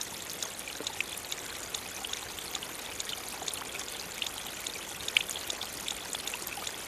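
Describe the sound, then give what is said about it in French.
Water flows past patches of moss with a continuous soft rushing and trickling. Faint scattered drips and splashes rise above the steady flow. “Déjà, l'eau qui s'écoule vous fait un signe.”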